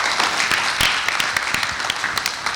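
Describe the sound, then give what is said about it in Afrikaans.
Applause from a church audience welcoming a guest speaker: dense, steady clapping from many hands that continues without a break, with no voices on top. “So kan ons vir Erik net 'n hand gee en hom verwelkom.”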